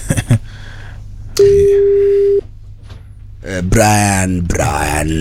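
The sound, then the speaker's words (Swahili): A telephone call ringing out: after a short knock, a single steady ringback tone sounds for about a second over faint background noise, followed by voices talking. “Huyu ni Brian tunampigia.”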